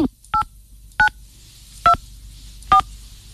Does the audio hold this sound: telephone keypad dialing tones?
yes